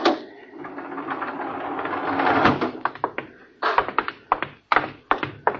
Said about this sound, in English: Landing jacks are down, sir. Open the airlock.